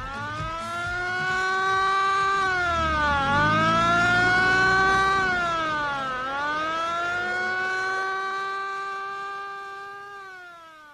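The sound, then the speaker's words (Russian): Ambulance siren wailing as the vehicle drives away, its loud, harmonic tone sweeping slowly down and up in pitch several times before fading toward the end, with no voices. “Скорая помощь удаляется.”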